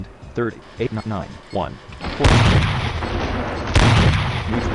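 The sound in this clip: Two heavy tank gun blasts in a video game. Each is a loud, broad boom with a long rumbling tail, and they come about a second and a half apart after a short stretch of voices.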